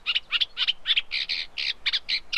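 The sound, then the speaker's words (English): An unmated male reed warbler in England sings a rhythmic run of harsh, high-pitched chattering notes, repeated in quick regular bursts and clear against a quiet background. “Of course, that is the reed warbler, the song of the unmated male with cows in the distance.”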